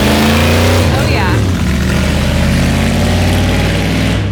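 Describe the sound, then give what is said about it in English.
A motorbike drives past with a loud, dense engine rumble that runs steadily through the whole stretch, while people talk over it. “I wish that the podcast could see the amazing bike that's driving by”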